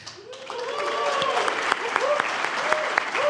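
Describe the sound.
Applause from a live studio audience at an international tax conference in Dana Point, California: dense, steady clapping, fairly loud, holding throughout with a few sharper individual claps standing out.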